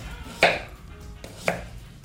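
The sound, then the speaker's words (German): A knife cuts food into slices for a home cooking segment. Two crisp chopping strokes hit the board about a second apart, sharp and clear against a faint, quiet background. “wie dick schneiden wir diese Scheiben und in welche Richtung schneidet man”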